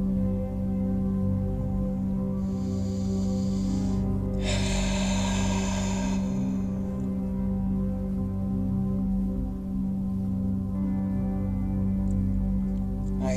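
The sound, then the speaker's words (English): A few long, airy, deep breaths during a chakra meditation before sleep, drawn slowly over a steady, low, sustained musical drone. “Deep conscious breaths into the throat chakra, into the thyroid gland.”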